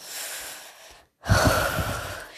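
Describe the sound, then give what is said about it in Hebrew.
Deep breathing during a guided breathing exercise: a long, soft airy breath, a brief pause, then a louder, fuller rushing breath that slowly fades. “תנשמו עמוק, 5 נשימות.”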